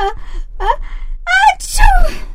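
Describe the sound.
A woman suffering from a heavy cold lets out a few wavering, voiced gasps before a sharp sneeze bursts out and trails off in a falling vocal tone.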